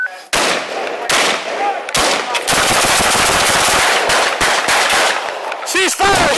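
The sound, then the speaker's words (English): Gunfire in a burst of many rapid shots fired one after another, loud sharp cracks running almost continuously after a brief opening pause, with short gaps between volleys. “As you could hear, multiple shots were fired.”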